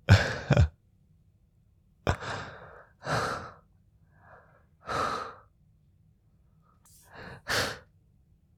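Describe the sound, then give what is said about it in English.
A person pants and catches their breath: several heavy, breathy gasps and sighs come in separate bursts, with quiet pauses between them. “It's okay, you can catch your breath.”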